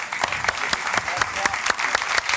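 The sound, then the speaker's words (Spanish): Audience applause at the opening night of a water festival, a dense, steady patter of many clapping hands with sharper individual claps standing out, loud and continuous throughout. “Yo creo que les podemos dar otro aplauso, ¿verdad?”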